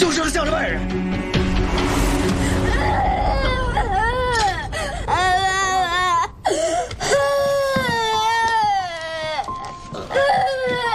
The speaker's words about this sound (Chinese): 爸爸，别哭了。